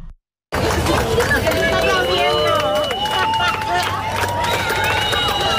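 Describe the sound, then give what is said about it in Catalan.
Hundreds of people watching a solar eclipse on Barceloneta beach in Barcelona make an excited crowd noise of overlapping voices, shouts and rising and falling whoops over a constant babble. “centenars de persones, ho sentim de fons, han viscut el gran fenomen astronòmic des de la platja de la Barceloneta de Barcelona”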